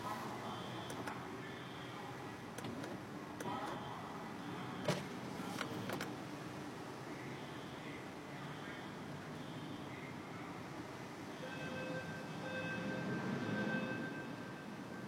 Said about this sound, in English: And traffic out here is fucking terrible.